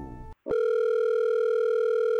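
A steady telephone line tone plays while a guest is being called. A brief different tone comes first, followed by a short silence. Then a continuous, even, humming tone holds to the end.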